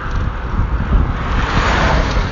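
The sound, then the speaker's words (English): A strong tailwind of about 20 mph blows past a cyclist riding a mountain bike on a road. It makes a loud, steady, buffeting roar of wind noise with low rumbling gusts throughout, and nobody speaks. “That doesn't really matter, apart from today where I've got a 20 mile per hour wind behind me.”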